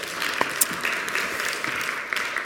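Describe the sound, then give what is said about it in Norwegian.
Applause from a Norwegian church gathering after the worship team's songs, a steady, even patter of many hands clapping with a few brighter claps poking through. “Gi dem en klapp.”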